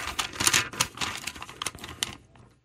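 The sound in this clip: An envelope is torn open, with a burst of crisp paper ripping and crinkling that comes in uneven flurries and then trails off into quiet.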